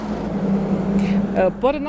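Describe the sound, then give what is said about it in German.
A truck drives past on a road beside a highway in an industrial zone, giving a steady, loud engine rumble throughout, with a voice heard briefly near the end. “Dieser LKW, der gerade vorbeigefahren ist, kommt von der Ling Long-Baustelle.”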